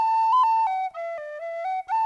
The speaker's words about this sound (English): The boy touched the penny whistle to his lips and he began to play